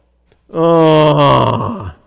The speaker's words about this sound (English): I usually don't glory. I usually groan.